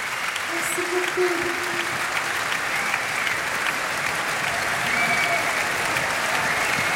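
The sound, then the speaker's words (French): A standing ovation from the audience in Marciac for a performer, with sustained, dense applause of many hands clapping at an even level for the whole stretch. “Et le public marciaquois attentif, en fait, lui fait maintenant une standing ovation.”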